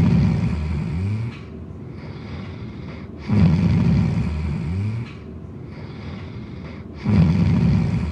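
Loud rolling snore on each inhale from a sleeper with a vibrating soft palate, a rough rasping rumble recurring about every four seconds, with quieter, thinner breathing in between.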